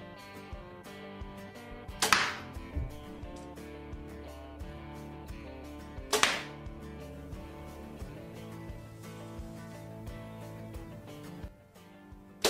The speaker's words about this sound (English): Holds pace, this bow also shoots so nice, and you'll see for yourself here in these shots.